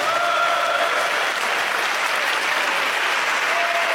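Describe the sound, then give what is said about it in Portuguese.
A church audience claps together for Jesus at the close of a Portuguese-language sermon. The applause is dense, steady and loud, lasting throughout with no voices above it. “Podem bater palmas para Jesus, meus irmãos.”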